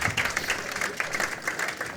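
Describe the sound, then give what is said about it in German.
Audience applause at a live event, a thick, steady patter of many hands clapping at fairly even loudness, with small swells and dips but no pauses. “Und dann würde ich doch genau deinen Applaus nochmal.”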